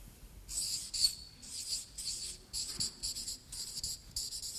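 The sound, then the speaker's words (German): Someone writes something down with high, scratchy squeaking strokes, many short bursts in an uneven rhythm, moderately faint, with no talking. “Gesundheit, okay. Schreiben wir mal auf.”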